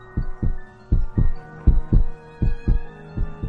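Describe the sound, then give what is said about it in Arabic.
A heartbeat thumps in steady paired lub-dub beats, about five double beats, low and loud with no talk, as someone presses an ear to a bedroom door during a horror story. “مش سمع حاجة. مش سمع غير يا دوب دقات قلبي.”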